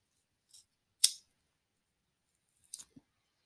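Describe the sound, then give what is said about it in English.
A cigarette lighter clicks a few times: short, sharp metallic snaps separated by silence, with one louder click early on and a quick cluster of clicks later. “You hear the lighter click?”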